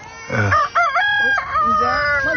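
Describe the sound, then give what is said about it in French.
A rooster crowing in a village: one long, loud, wavering cock-a-doodle-doo with a strained, harmonic tone that stretches over about two seconds. “Fais taire ce coq.”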